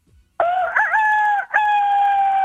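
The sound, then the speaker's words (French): A voice imitates a rooster crowing: a loud, sustained, nasal call in two long phrases split by a brief break, with no other sound around it. “Non, mais c'est le coq.”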